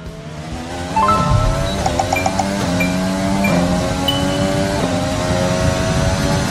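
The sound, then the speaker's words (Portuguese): A racing car engine howls through a fast virtual lap of Spa-Francorchamps in a video game, loud and high-pitched, climbing in pitch and then dropping sharply at each of several gear changes. “Para entender melhor esse assunto, a gente vai pegar agora uma carona no mundo virtual, dentro de um cockpit, durante uma volta rápida digital na pista belga.”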